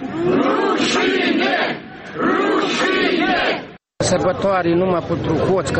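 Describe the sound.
A protest crowd in Moldova shouts "shame" at an anti-government rally over corruption: loud, rhythmic massed voices chanting in unison, breaking off briefly before the chant resumes.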